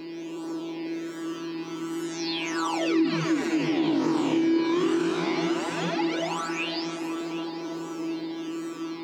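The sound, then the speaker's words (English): A tweaked synthesizer intro part: a sustained, droning tone runs beneath bright filtered sweeps that swoop down and back up in wide arcs. The texture swells slightly in the middle and stays loud and dense, with no voices. “The Albino 3 intro survived, but got tweaked a little bit. Plus, it got a second coming out of the chorus, and it now sounds like this.”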